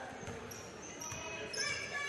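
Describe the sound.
A basketball is dribbled on the court during the third quarter of a women's game: a few faint, dull bounces under low background noise.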